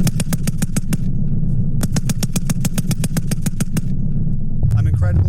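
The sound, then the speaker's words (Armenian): Automatic weapons fire test rounds at a military training range: two loud bursts of rapid, evenly spaced shots, a short one and then a longer one, over a low, steady rumble. “Ամերիկացի և վրացի զինվորական հրահանգիչները Վազյանի փորձադաշտում ցուցադրել են այդ զենքի կարողությունները փորձնական կրակոցներ արձակել։”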